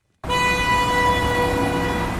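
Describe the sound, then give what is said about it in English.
A car horn blares in congested Beirut street traffic. It starts abruptly and holds as one steady, loud, buzzy tone for about two seconds over a low rumble of traffic. “This is the soundtrack of Beirut. A cacophony of engines and horns, many of which are frequently at a standstill due to crippling traffic problems.”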